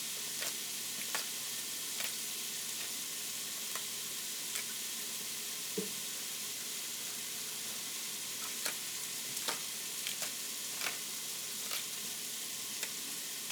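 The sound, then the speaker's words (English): Cabbage and collard greens sizzle with translucent onions in a pan, a steady bright frying hiss broken by scattered sharp ticks and pops. “Once your onions become translucent, you are going to throw in all these pieces of cabbage and collards.”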